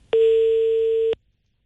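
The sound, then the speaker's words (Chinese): A ringback tone plays while a mobile phone call goes unanswered: a single steady mid-pitched beep about a second long, followed by silence. “这应该是一部手机电话，按说应该有人接。 好，我们再等两下啊。”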